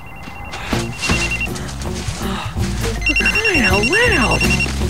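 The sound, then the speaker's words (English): A phone rings at the base of the snowy Tian Shan Mountains with a fairly loud electronic melodic ringtone of stepping tones, then warbling, swooping trills over a steady beeping pattern. “The man in the thermal suit answers his phone.”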